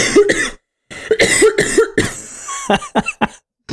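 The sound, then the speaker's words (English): Repeated harsh coughing from a person who has just choked on their own saliva, with rapid bursts of hacking coughs separated by short pauses and some throat clearing. “I got really excited. I like choked on my own spit.”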